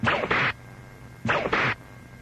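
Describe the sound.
Whip lashes as a sound effect, four sharp swishing cracks in two quick pairs separated by a short pause, heard alone without talk.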